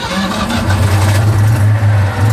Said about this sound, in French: Ce dimanche, à Longecours en Plaine, c'est le 4e rassemblement de véhicules anciens organisé par le Simca Racing Team. Je vous offre maintenant un baptême avec un vieux bolide à vous de choisir.